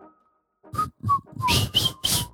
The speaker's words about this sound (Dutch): kan niet goed fluiten.